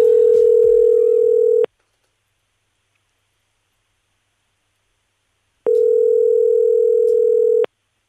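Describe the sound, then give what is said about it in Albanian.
A telephone ringback tone plays while a caller waits for an answer: two long, steady, mid-pitched tones are separated by several seconds of silence. “Shpresojmë që tani ta hapi mhm. telefonin.”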